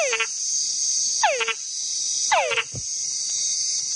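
Frog mating calls: three descending whines, each followed by a quick cluster of short chucks, repeat over a steady high-pitched insect buzz.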